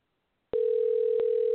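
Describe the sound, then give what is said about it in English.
Telephone dial tone: after a short silence a steady, unbroken tone at one constant pitch starts abruptly and holds to the end, with a couple of faint clicks along the way. “all right, we are dialing.”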